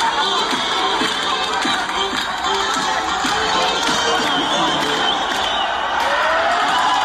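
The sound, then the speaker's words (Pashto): A crowd celebrates in the streets of Herat, Afghanistan, a dense, continuous roar of many voices with cheering and shouts, holding steady and loud throughout. “په هرات ولایت کې هم خلک د دې بریا هرکلی ته راوتلي وو او په لارو کوڅو کې اتڼونه او خوشحالۍ”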